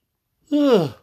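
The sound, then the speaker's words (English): A single drawn-out human yawn, a voiced sound of about half a second with its pitch sagging downward at the end, heard alone. “Wow, I got the yawns going on tonight.”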